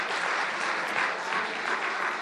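An audience at a chapel service applauds to welcome guests. The clapping is dense and steady, a sustained wash of many hands at an even, fairly loud level from start to finish.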